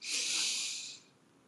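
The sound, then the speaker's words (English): One deep breath taken by a speaker: a loud, bright, airy rush of air that holds steady for about a second and then fades away, heard alone. “I want everyone right now to take a deep breath”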